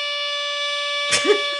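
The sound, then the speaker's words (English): A long, blaring air horn sound effect holds one steady pitch with a bright, buzzy tone for about a second, then cuts off, followed by a short noisy burst. “That air horn goes on too long. It's really long.”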